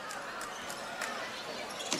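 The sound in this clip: Basketball dribbled during a high school girls' game for Greenfield Central, with a few faint, sharp bounces under a commentator's voice.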